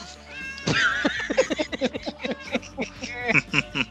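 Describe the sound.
A cat gives a few high, wavering meows among people talking in quick bursts.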